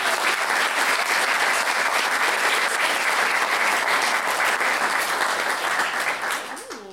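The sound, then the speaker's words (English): Audience applause at a storytelling event: a steady, thick wash of many hands clapping holds at an even level for about six seconds, then tapers off at the end. “Big round of applause!”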